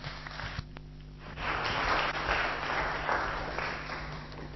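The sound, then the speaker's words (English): A light ripple of audience applause welcomes a speaker to an evening talk. Soft, steady clapping swells after a short lull and carries on at a fairly even level until the end. “Can we give him a little ripple of welcome as he comes to speak to us?”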